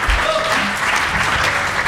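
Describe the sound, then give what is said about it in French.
A radio show audience applauds a dog's performance. The clapping is loud, dense and unbroken, a steady wash of hands that holds from start to finish. “On peut quand même applaudir la volonté inter-espèce hein, que nous défendons à Radio Combo.”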